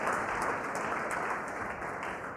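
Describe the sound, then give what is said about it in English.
A church audience applauds the worship team with steady, dense clapping that holds evenly throughout and eases off slightly toward the end. “And I thought the worship team done fantastic. You guys can sit down, by the way. Let's give them a hand.”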